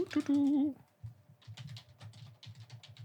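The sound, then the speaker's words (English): Typing on a computer keyboard to enter a search, a run of quick, irregular clicks at moderate loudness, preceded by a brief tonal sound. “Just gonna type it in.”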